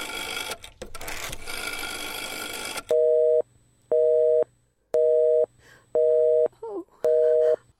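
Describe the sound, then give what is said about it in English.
A telephone busy signal: five evenly spaced, steady, loud tone pulses, following a few seconds of rough, noisy sound at the start. “I can hear it! You don't have to tell me I know it's busy!”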